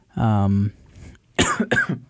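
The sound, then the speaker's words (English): Coughing from a person who is still a little sick: a short voiced throat sound, a brief pause, then two sharp, breathy coughs close together. “sorry for my coughs. I'm still a little sick.”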